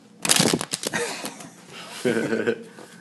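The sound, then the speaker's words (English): Index cards are shuffled in a quick burst of crisp riffling and flapping within the first second, followed by softer rustling. A voice then speaks briefly. “Why are there cards in the background? Do they have questions on cards? Yes, they're we do. Very confused. Yes, we do. We do have questions. We have cards. Index cards full of questions. We shuffle them up,”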